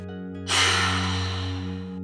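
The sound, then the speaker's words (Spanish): A slow, deep breath in through the nose during a guided mindfulness breathing exercise, heard as a long, steady airy rush over soft, sustained musical drones. “Te voy a invitar a que hagas una respiración profunda por nariz, llenándote de oxígeno de vida, y exhala por boca,”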